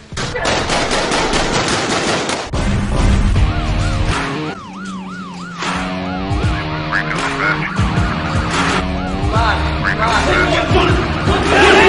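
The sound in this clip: Gunfire in a dramatic scene after an order to open fire: rapid bursts of shots open the scene, then wailing, siren-like tones and voices follow, with more shots mixed in.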